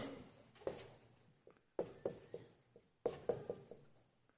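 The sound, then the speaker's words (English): A word being written down on paper, heard as scratchy strokes in a few quiet bursts of short scraping marks separated by brief pauses, with no talk. “well, I'll write it down”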